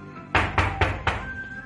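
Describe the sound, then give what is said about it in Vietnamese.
Four sharp knocks on a door come in an even, fairly quick rhythm. Each is a short, solid thud that dies away fast, with quiet between the strikes. “Ngoài cửa đúng lúc lại vang lên một tiếng gõ cửa.”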